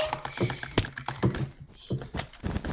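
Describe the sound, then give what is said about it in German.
Computer keyboard keys, A and S, are pressed while someone plays Minecraft. The sharp key clicks come in uneven, repeated bursts at a fairly quiet level. “Ich drücke wirklich beide Buttons gleichzeitig, aber natürlich drücke ich mehr A als S.”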